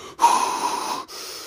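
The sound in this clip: A voice imitates heavy, nervous breathing, the shaky kind before stepping on stage to give a talk. One long, rough breath lasts about a second, and a softer second breath follows after a brief gap.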